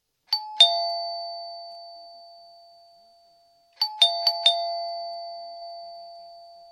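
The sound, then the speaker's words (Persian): A doorbell chime rung at a house gate: a two-note ding-dong, then after a pause a quicker run of four ringing notes, each clear bright tone sustaining and slowly fading, with no voices. “زنگ را که زدم”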